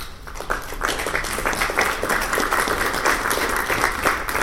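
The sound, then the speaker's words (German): Thin applause from a small shareholders' meeting of only a few dozen attendees: sparse, steady clapping with many separate hand claps, moderately loud and continuing throughout. “Applaus, wenn auch ein dünner. Kein Wunder, bei gerade nur 29 Aktionären, die anwesend waren.”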